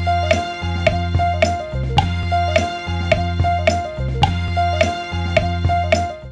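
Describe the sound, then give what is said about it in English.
Looped music sample cut from a song and repeated end to end: a short phrase of rhythmic struck hits over sustained deep bass and tonal chords, cycling steadily and loudly with no break. “If we were to loop the clip in question, it would sound like this.”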